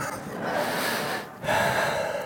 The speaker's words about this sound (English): Gotta catch my breath. They say don't run in church, but sometimes you have to.